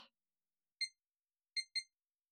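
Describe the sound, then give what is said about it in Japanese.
A kitchen timer being set gives short, high electronic beeps: one beep, then a quick pair of beeps, with silence between them. “じゃあタイマーをセットして、”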